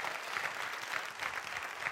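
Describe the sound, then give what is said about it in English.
A church audience claps hands in praise, a steady dense wash of applause with no single claps standing out, moderately loud and continuous throughout, with no clear voices over it. “Come on, give the Lord a hand clap of praise.”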